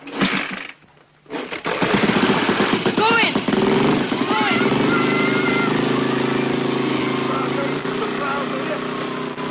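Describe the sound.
Motorcycle engine of a rainbow bike, ridden T.T. style, cuts in after a short pause and then runs loud and steady, a rough, throbbing drone that holds to the end, with a voice talking over it.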